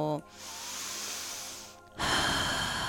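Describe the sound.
A deep breath drawn in, one long airy inhale lasting under two seconds, set between brief bits of voice at the start and end.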